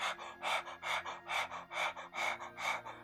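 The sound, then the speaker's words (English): A human voice imitates dogs panting, producing a quick, even series of breathy huffs in a steady rhythm, soft but clear, with a faint steady tone underneath. “you hear the sound of panting, as in,”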